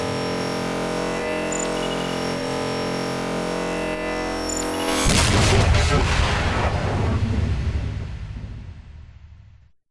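A single gunshot in a dramatic fiction scene: a steady droning tone gives way to one sudden loud blast, followed by a long rumbling, crackling decay that slowly fades to silence.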